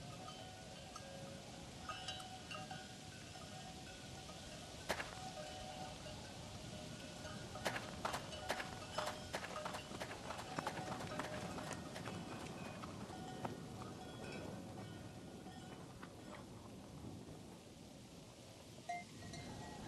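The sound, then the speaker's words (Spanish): Horses' hooves of a caravan clip-clop faintly and irregularly, with a cluster of sharp hoof clicks through the middle, over a steady low background rumble. “Si no me equivoco, viene una caravana.”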